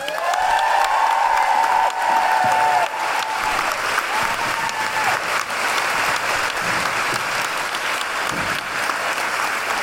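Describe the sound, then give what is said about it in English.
An audience at a live comedy and music show gives loud, sustained applause and cheering to a feminist singing workshop group. A held hoot-like tone sounds over the clapping in the first few seconds. “Could you please put your hands together and make wonderful new hooing noises for Jane York, accompanied by Madalena from Big Feminist Sing!”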